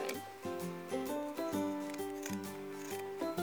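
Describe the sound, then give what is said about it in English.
Pinking shears cutting across cloth napkin fabric, producing a steady series of crunching snips that repeat about every half second. “you take your pinking shears, and it's as simple as just cutting across.”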